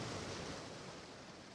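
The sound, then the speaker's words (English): Waves wash at the water's edge on a beach, a faint, continuous hiss of surf with no distinct breaks. “you enjoy a stroll along the beach at the water's edge,”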